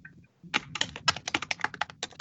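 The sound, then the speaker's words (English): Fast, furious typing on a computer keyboard, a rapid burst of many crisp key clicks in an uneven rhythm, fairly faint and with no voices. “But I can hear the furious typing. Yeah, I heard the furious typing.”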